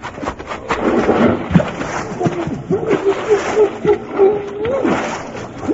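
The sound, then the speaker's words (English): Splash of a person in buckskins taking a running jump into cold water: a broad wash of water noise, then loud vocal yelps and gasps. “I'm going to take me a long run and jump and get wet all at one time.”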